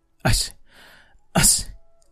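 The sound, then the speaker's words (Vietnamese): Two sneezes, each a sudden, loud, breathy burst, separated by a brief, quieter hissing breath. “đột nhiên hắt hơi vài tiếng”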